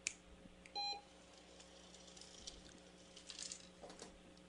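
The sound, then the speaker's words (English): A dog-training treat dispenser gives one short, bright electronic beep before a treat drops. The beep is followed by quiet, faint rustling over a steady low hum. “we're going to do is pair that several times so that she understands that sound predicts that treat's going to fall into the”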